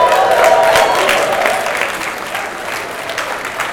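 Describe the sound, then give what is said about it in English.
Audience applause fills the room at the 2017 BC Beer Awards and Festival, a dense, loud burst of many hands clapping with a faint crowd murmur that slowly tapers off. “Let's have a big hand for everybody.”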